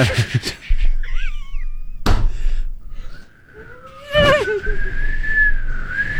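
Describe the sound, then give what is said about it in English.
A person half-whistles to imitate wind forcing through an unsealed duct in a hallway. A brief breathy warble comes first, then a dull thunk, then a longer steady whistle that wavers slightly. “It's a half whistle.”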